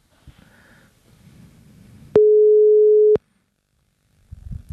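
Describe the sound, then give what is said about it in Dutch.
A telephone call tone sounds as a call is placed: one steady, pure, loud tone lasting about a second, with faint low rumbling before it and a brief rustle afterward. “We gaan nu iemand bellen.”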